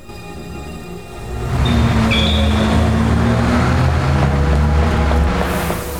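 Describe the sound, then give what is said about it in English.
A blue BMW car pulls away, its engine noise swelling into a steady, loud rumble that holds for several seconds. “The first car, a blue BMW, pulls up and kills its lights. Richard hurries towards it, but it pulls away.”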